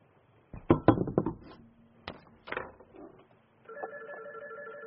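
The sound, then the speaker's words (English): Telephone ringing for an incoming call, after a few clattering knocks and handling noises; a short pause follows, then a steady, moderately loud electronic ring tone holds to the end. “Uh-oh. We got a caller.”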